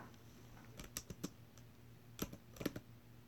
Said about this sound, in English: If I weren't here and you were gonna look at porn, what would you do? What would you search for? Go ahead and type it in.